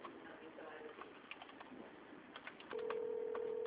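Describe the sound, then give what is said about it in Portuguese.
A call-waiting tone on a phone line during a call: faint background noise, then a steady mid-pitched beep starts partway through and holds unbroken to the end. “eu tô na ligação e tá tendo um barulho de chamada aqui.”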